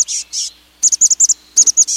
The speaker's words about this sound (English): you may find its cousin, the chestnut-backed chickadee, tagging along.